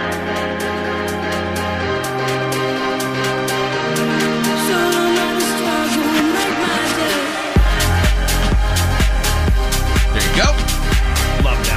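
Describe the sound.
Electronic dance track opening with sustained synth chords that build, then a heavy pounding kick-drum beat drops in about two-thirds through and drives on loudly to the end.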